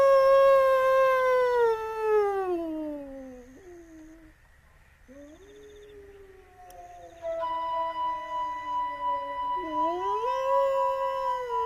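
A person imitates a wolf, answering with long, drawn-out howls. The first slides slowly downward in pitch, and a later one sweeps back up, each sustained and wavering with no talk over it.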